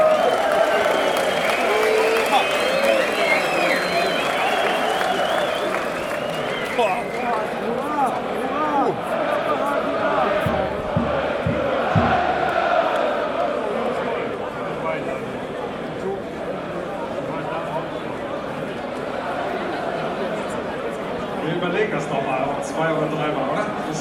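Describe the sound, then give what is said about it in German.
A crowd applauds and murmurs in the sold-out Stadion An der Alten Försterei, a steady wash of clapping and crowd noise running under a man's voice speaking German. “Herzlich willkommen im Stadion an der Alten Försterei.”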